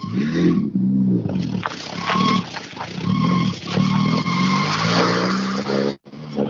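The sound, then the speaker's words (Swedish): A rally car on a shakedown run roars loudly while its tires skid and squeal. The engine tone shifts continuously and stays loud throughout, dropping briefly just before the end. “Vi ska åka RAC-rallyt om två månader så vi vill, det är bara shakedown nu. Och jäklar med denna! Ja. Med denna bilen.”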